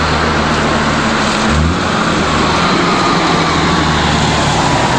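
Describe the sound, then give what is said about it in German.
A car engine drones steadily as the vehicle drives with bread loaded in the back toward a barracks. There is a loud, constant low rumble and broad road noise throughout, with no clear change in pitch and no voices. “Und so fuhren die beiden los. Das Brot wurde hinten verstaut und sogleich ging es zurück Richtung Kaserne. Plötzlich nahm Vanya den Fuß vom Gas.”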